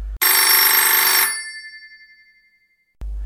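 Telephone bell ringing for an incoming call: one loud, bright ring rattles for about a second and decays away, then a second ring starts after a short silence.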